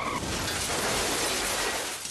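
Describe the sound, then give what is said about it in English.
Glass shatters as an SUV smashes into a Jetta's driver's side door, a loud, dense crash of crackling, breaking noise sustained for about two seconds without voices. “Airbags deploy, glass shatters.”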